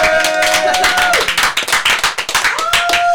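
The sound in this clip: Studio audience clapping in quick, even, rhythmic claps, loud and steady for the whole stretch.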